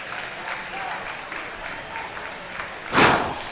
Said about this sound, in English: Cam gets a big round of applause as he goes back in the dugout.